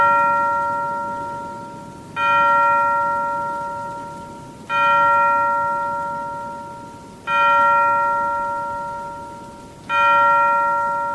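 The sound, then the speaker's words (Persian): A clock strikes four clear, bell-like chimes at even intervals of about two and a half seconds. Each ringing tone fades slowly before the next, and the tail of an earlier strike is audible at the very start. “زنگ ساعت پنج بار نواخته شد.”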